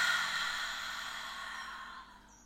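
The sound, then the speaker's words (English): A deep breath through the nose and lungs, heard as a long, airy whoosh that starts strong and gradually fades over about two seconds. “deep, deep breath in through your nose. Filling up your lungs and breathe out.”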